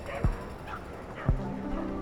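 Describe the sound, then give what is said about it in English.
Two short, sharp dog barks or yips, evenly spaced, from a pack of eleven dogs led by a dog walker along a city street, rising briefly above a low, steady background hum. “A dog walker, walking 11 dogs?”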